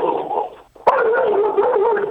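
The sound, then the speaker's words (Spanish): A dog barks and yelps in a continuous, wavering stream of whining vocal sounds, broken by one sharp, loud burst partway through. “Se me puso a ladrar el perro.”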